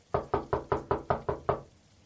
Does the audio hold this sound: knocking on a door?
yes